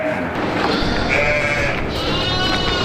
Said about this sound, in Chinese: 湖羊这一中国特有的珍贵绵羊品种，主要产于太湖平原一带。